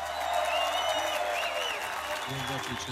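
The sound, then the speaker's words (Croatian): An audience gives a brief round of modest applause, a steady patter of clapping with tonal sounds mixed in and a voice emerging near the end. “Hvala na tom skromnom aplauzu.”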